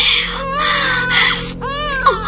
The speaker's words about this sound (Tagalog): Baby, ayaw maghilak!